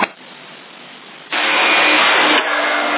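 An engine starting up, with a quieter whirring crank that suddenly jumps to a loud, broad running roar, then eases slightly to a steady level.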